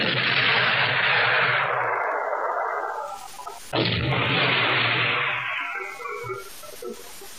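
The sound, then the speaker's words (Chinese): Enemy artillery fire, heard as two heavy, loud blasts a few seconds apart, each followed by a long rumbling decay that slowly fades. “敌人的炮火打得很厉害呀。”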